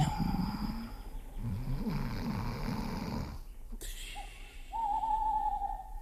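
Owl-like hooting, a steady mid-pitched tone in the last seconds, follows a stretch of low, rough snoring sounds.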